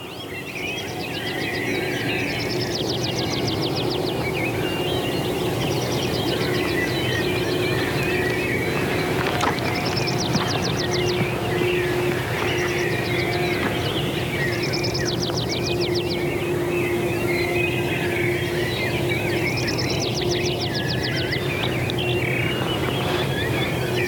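Early-morning birdsong in an area where song thrush, skylark, great spotted woodpecker and blackcap gather, with repeated high trilling bursts over a dense, continuous chorus.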